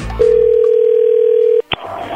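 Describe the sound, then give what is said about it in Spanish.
A telephone dial tone sounds while a call is being dialed. One loud, steady, even tone holds for over a second, cuts off, and is followed by a short beep and then a different tone. “Muy bien, ya le estamos marcando”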